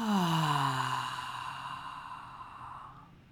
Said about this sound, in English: Take a full breath in. Exhale, let everything go.